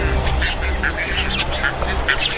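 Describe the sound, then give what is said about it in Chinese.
Bird chicks squabble fiercely over food their parents have brought back, producing a loud, dense, continuous chorus of harsh, quacking squawks with no pauses. “彩环雏鸟内斗不断，尤其是在父母带着食物回来的时候更为严重。”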